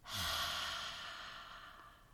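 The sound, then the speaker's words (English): A slow, drawn-out exhale through a wide-open mouth, the breath pushed across the back of the throat. It makes a soft, breathy rush that begins full and gradually fades over about two seconds, heard alone. “Then exhale slowly through a wide open mouth. Direct that outgoing breath slowly across the back of your throat with a drawn out”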